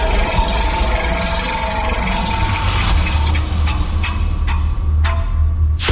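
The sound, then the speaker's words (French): A spinning prize wheel sound effect, with a string of sharp ticks in the second half over a loud, steady rumbling noise that fills the whole clip. “on va faire tourner la fameuse roue des séquences”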